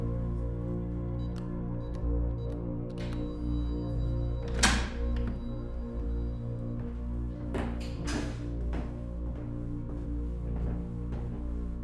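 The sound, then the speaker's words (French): A door being closed: a few dull thunks and knocks against a steady low hum, with faint scraping between them. “La porte est ouverte, s'il vous plaît. Refermez la porte”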